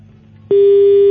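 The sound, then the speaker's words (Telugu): A telephone busy tone sounds after a phone call is cut off: one loud, steady mid-pitched beep lasting just over half a second, preceded by a faint low background hum. “Call cut అయినట్టుంది”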